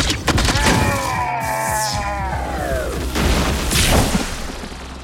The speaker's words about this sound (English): Something came out of it. Some kind of energy bolt. It shot down there.